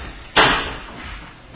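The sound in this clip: A door is shut with one sharp, loud thud that quickly fades back to a low, quiet background.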